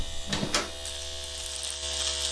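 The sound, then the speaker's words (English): An electric razor buzzing during a shave in a guest bathroom: a continuous, even electric hum with a couple of brief, noisier bursts near the start. “He's in the guest bathroom, miss, shaving.”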